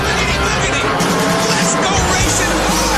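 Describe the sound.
NASCAR race cars roar through the Daytona 500 season opener, a loud, continuous, dense engine and tire din that never lets up, with voices mixed into the noise.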